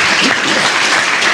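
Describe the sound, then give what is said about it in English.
An audience claps their hands at a church service: a loud, dense, continuous patter of many hands that holds steady throughout. “Let's clap our hands unto the Lord.”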